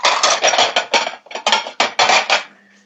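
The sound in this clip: A plate is taken out in a kitchen with a loud clatter of crockery, several quick rattling bursts in a row that stop abruptly and leave near silence.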